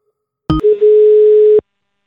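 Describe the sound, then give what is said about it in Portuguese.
A telephone ringing tone on a call to a bar in Iceland. A short burst is followed by a single steady, loud, mid-pitched tone lasting under a second, then silence. “Tá ligando pra um bar na Islândia agora.”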